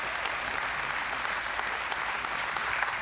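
An audience applauds to welcome a pastor at a morning gathering, with dense, continuous clapping that stays loud and even from start to finish.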